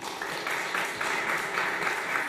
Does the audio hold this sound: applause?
yes